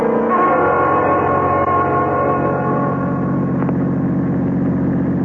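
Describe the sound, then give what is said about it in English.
A car drives along and then pulls off the road at night. Its engine gives a steady, droning hum full of tonal harmonics, and the tone shifts partway through. The sound is loud and continuous throughout. “this is about as far as we should drive. We'll just pull off the road here.”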